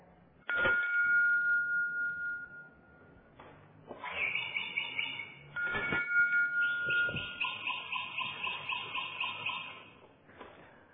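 A hand bell is shaken in several separate bursts, each giving bright, ringing, overlapping tones that start sharply and sustain before the next shake, heard alone with no talk.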